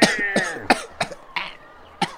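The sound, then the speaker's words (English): A man chokes, coughing and gasping for breath as something grips his throat. About six harsh, ragged bursts come at uneven intervals, with strained voiced gasps between them. “Choking me, can't breathe.”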